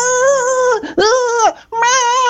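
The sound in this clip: A voice imitates children crying and shouting at the beach with three drawn-out, high wailing cries, each separated by a short break. The wails are loud and harmonic, and the pitch dips between them.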